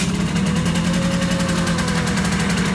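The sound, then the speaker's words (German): An engine running with a loud, steady, throbbing low drone and even rhythmic pulsing, holding one level throughout with no voices. “ein bisschen Gas geben, ne?”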